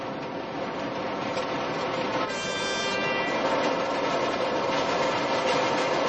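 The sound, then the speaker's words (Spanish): A train pulls into a station platform, a steady, loud rumble of wheels and engine that holds throughout, with a brief high tonal note partway through. “Jimmy llega al andén. Está vacío. El tren llega al andén contrario.”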